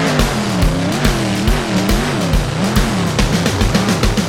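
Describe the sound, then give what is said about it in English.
A black monster truck's motor revs loudly and continuously. Its pitch swings up and down in repeated waves over a rapid, pulsing rumble. “revving up its motor. Vroom, vroom, zoom, zoom, up it goes.”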